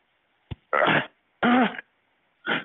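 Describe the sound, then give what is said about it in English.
Choking sounds from a man in distress: a brief click, then three harsh, raspy bursts like gagging and forced throat clearing, each under a second, with short silences between them. “I need some help. My brother is choking.”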